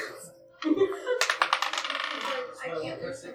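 Dice rattle and clatter across a surface during a tabletop role-playing game's luck roll. A quick burst of many sharp clicks tumbles on for a second or so, then settles into softer rattling.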